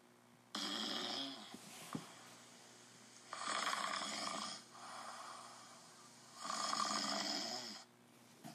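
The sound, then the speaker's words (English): Men snoring in a tent: slow, rasping breaths with three or four loud, rough snores rising and falling in a regular rhythm, separated by quieter breathing, with no talk. “The sound of snoring men filled the tent.”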